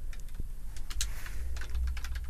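Typing on a computer keyboard during an online search, an uneven run of many quick, light key clicks with no talk over it.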